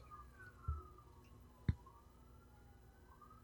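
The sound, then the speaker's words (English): Faint siren wailing outside, a thin, slowly wavering tone held under the background, with two brief dull knocks standing out over it. “Wow, those sirens are really fucking going hard.”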